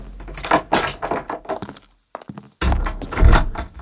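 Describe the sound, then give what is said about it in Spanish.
Doors opening at basement level two: a run of clattering knocks and thumps, a short near-silent gap, then a loud, sustained rumbling slide with heavy low thuds. “Abriendo puertas.”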